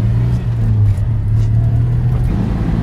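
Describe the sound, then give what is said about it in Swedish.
A Citroën 2CV's engine runs while driving, giving a steady, loud, low drone with a constant hum. The sound continues without pause and no one speaks. “men vi har ju hela tiden det där mysiga motorljudet.”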